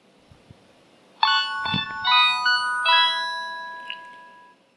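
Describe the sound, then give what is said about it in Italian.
Mobile phone text-message alert tone: a short, bright chiming jingle of a few bell-like electronic notes that ring on and slowly fade out, with no voices. “Ad un certo punto mi è arrivato un messaggio.”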